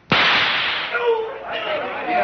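A gunshot fired from a gun in a drama: one sharp, loud crack followed by a long, slowly fading ringing tail.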